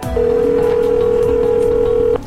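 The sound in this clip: A telephone line tone as a call is placed: one steady, unbroken electronic tone at a fixed pitch, lasting about two seconds and clearly loud over faint low background noise, then cutting off abruptly.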